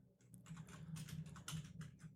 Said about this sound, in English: You probably just type in, you're messing with the wrong guy.